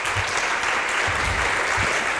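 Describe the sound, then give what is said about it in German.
Audience applause closing a panel discussion: warm, dense clapping that holds steady and even from start to finish, with no voices rising above it. “Ganz herzlichen Dank dafür und bitte nochmal einen warmen Applaus von Annette Mühlberg.”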